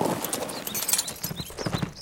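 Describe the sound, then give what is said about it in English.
Horse hooves clip-clopping as a rider rides off toward town, a quick, steady run of hoofbeats over a noisy background. “Martina watched him ride toward town”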